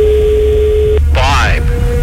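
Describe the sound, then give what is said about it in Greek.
A telephone ringing tone on a call line, a steady mid-pitched hum that cuts off after about a second, a brief voice, then the tone resumes and holds to the end. “Τρίτο χτύπημα, δεν μ' αρέσουν αυτά. Τέταρτο, σηκώσε το τώρα.”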